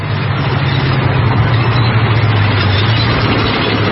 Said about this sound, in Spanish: El tanque pasa sobre el hoyo.